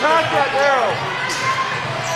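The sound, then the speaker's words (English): A basketball is dribbled during a game, the bounces blending into the court ambience while a commentator talks over them. “Douglas to Miles. Miles dribbling right.”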